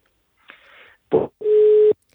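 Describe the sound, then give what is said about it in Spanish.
A telephone call with a hospital doctor drops and the line disconnects. A soft hiss of line noise comes first, then a short loud crackle, then a steady mid-pitched tone that holds for about half a second and cuts off. “me parece que justo hemos perdido la llamada con el doctor Bernal, con Enrique Bernal”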